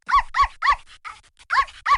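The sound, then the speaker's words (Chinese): A dog barks at visitors arriving in the yard of a house, with five loud, sharp barks in a quick uneven rhythm and a few softer yelps between them. “明叫了起来，意思是有人来了，没人来他是不会乱叫的。以前的土狗会叫，所以马一山女人说，明明灵得多，知道啥时该叫，啥时不该叫。”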